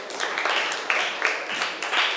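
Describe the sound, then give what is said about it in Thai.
Students in a classroom applaud a classmate, a dense, steady patter of many hands clapping in slight swells. “นักเรียนเก่งมากปรบมือให้เพื่อนหน่อย”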